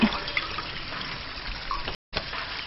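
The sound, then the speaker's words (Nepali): Water sloshes and splashes as mud is wiped off someone's shoulder, a steady, fairly loud watery hiss with a brief break near the end and no talk. “पछाडि कुममा पनि हिलो रहेछ है, यता हातै पुग्दैन त। खै, पानीले त म पुछिदिन्छु।”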